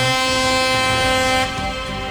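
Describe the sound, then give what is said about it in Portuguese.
Ride-app drivers and taxi drivers sound their car horns on request, a sustained, blaring blast of overlapping horn tones that holds steady, then thins slightly near the end. “Alô, motoristas de aplicativo, buzina pra mim, vai. Taxistas, buzina também.”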